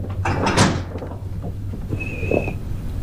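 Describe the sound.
A door being closed, with a short, sharp knock and slide early on, followed by quieter handling noise and a faint steady background hum.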